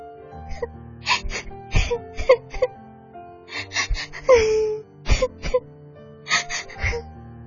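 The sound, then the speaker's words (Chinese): A little girl cries alone in a forest: several bursts of wailing sobs and whimpers, with gasping breaths between them. “小女孩吓得跑进了树林里，她害怕回家，又无处可去，伤心的哭了起来。”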